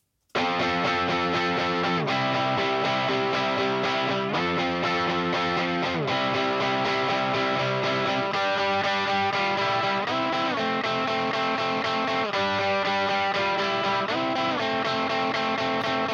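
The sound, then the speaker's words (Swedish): Distorted electric guitar played into a guitar amplifier and picked up by a flat, gold-coloured Sennheiser dynamic microphone: thick, loud, sustained chords that change every couple of seconds, continuous and without any talk. “Så den dynamiska gitarren på en distad delgitarr låter så här.”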